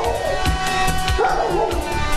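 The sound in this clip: Dogs bark and yip with a few whimpers as someone scuffles with them. Repeated short yelps sit within a busy, loud, continuous mix of sound.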